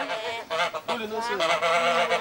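Geese honk loudly and repeatedly, their nasal calls overlapping in a busy, continuous chorus.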